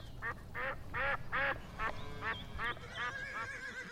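A female duck quacking in a faint, evenly spaced run of many nasal, harmonic quacks over a low background rumble.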